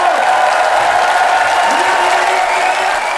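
Opening applause from a theatre audience of about 500 at a cabaret show, a dense, steady wash of clapping that stays loud and even for the whole stretch.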